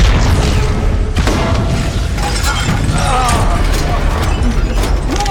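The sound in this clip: A detonation blast during an armed boarding of a ship, heard as a loud, dense wall of booming, shattering noise with crackling debris that holds steady and unbroken throughout.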